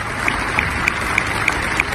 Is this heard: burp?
no